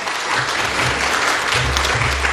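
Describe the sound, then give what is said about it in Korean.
Church audience applauding to welcome a visiting missionary during a Sunday service, a dense, steady wash of many hands clapping at full loudness throughout. “여러분 환영의 박수로 맞으시기 바랍니다.”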